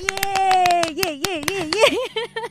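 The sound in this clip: Hand clapping: many sharp, quick claps from one person in an irregular burst, mixed with a voice that talks and briefly laughs alongside the claps.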